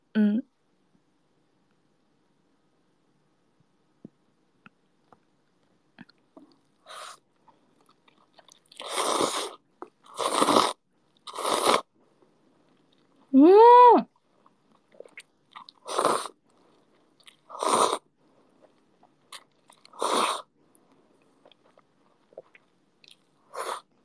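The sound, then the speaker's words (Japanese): Crunchy food being bitten and chewed, eaten with disposable wooden chopsticks: several separate crisp, crackling bites spread out with short quiet gaps between them, and no talking over them. “私も割り箸で食べる気分でいただきます。食べて、”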